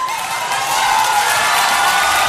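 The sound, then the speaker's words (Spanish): Audience applause breaks out at an evening music show as performers are welcomed, a dense, steady wash of clapping that holds fairly loud and even for the whole stretch with no voices on top. “un aplauso para ellos, los Mora Arriaga”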